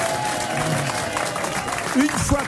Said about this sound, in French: Alors, je crois que c'est le moment, sous les hurrahs du public.